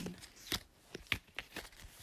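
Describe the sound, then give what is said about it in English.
A deck of tarot cards being shuffled, faint crisp riffling and papery slaps in several quick irregular bursts, with no voices. “I am currently shuffling the cards.”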